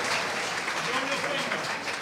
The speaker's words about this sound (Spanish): Eso, un aplauso por ese grito de amén.